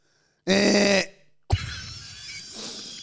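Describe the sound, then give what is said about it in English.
Someone coughs into a microphone: a strong voiced throat-clearing grunt is followed by a sharp, breathy cough burst with a trailing rasp. Two distinct events sound loud and alone. “Both you and I have just been coughing into the mic.”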